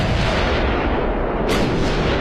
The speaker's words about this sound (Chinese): 两声巨大的爆炸声震惊了当时正在法兰西大球场内进行国家队友谊赛的法德两国球员